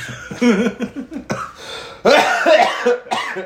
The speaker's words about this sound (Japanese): 咳込む。